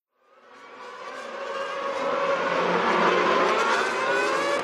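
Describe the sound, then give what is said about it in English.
A race car driven by Lewis Hamilton roars past, its engine note swelling from silence into a loud, sustained whine that holds steady to the end. “And Hamilton is closing the gap. The race is very close now. Oh, and he's going past. That's fantastic driving from Lewis Hamilton.”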